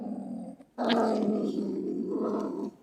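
A stone marten calls with a harsh, throaty growl: a short rasping burst, a brief gap, then a longer, louder snarling growl that holds steady before cutting off.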